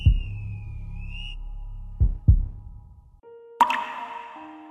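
Water dripping: one resonant plop at the start and two more close together near the middle, each ringing and fading slowly, with a faint high whistling tone early on and a brighter splashy burst near the end.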